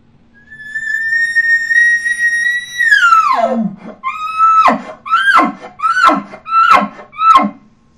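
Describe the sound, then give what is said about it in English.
A human caller imitates an elk location bugle ending with a grunt. A long, loud, high whistling note holds steady for a few seconds, then slides steeply down and gives way to five quick, rhythmic grunting chuckles, each falling in pitch. “Now I'm going to combine that with my location bugle. I'm going to locate out, and I'm going to throw the grunt at the very end of it.”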